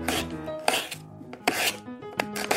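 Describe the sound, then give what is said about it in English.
Raw potatoes are sliced for chips in a few rough, crunchy strokes that come at a steady, repeated rhythm, with quieter scraping between them and no talking. “to make my chips, I first have to slice potatoes.”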